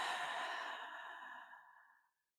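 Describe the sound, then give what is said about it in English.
An open-mouth clearing exhale, a single long breathy "hah" that starts full and slowly thins and fades away over about two seconds. “So what you do is you breathe in through your nose and then breathe out through your mouth, making a H-A-H sound, like you're trying to fog up a mirror.”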